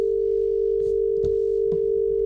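Telephone dial tone on an empty call to a call-in line: one steady, unbroken tone held throughout, with a few faint clicks under it.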